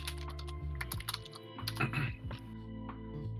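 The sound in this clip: Typing on a computer keyboard as a web search is entered, faint rapid clicks in irregular bursts with brief pauses between runs of keystrokes.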